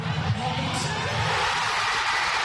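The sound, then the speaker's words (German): Thousands of football fans in central Oslo roar and cheer after Erling Haaland's late second goal for Norway against Brazil, a dense, sustained wash of crowd noise that holds steady from start to finish. “Schon als Norwegens Mittelstürmer Erling Haaland in der 90. Minute sein zweites Tor gegen Brasilien schießt, ist der Jubel bei den tausenden Fans im Zentrum von Oslo groß.”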